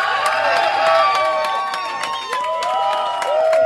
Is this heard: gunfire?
no